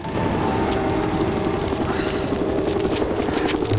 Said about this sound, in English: The drone passes inches above his head.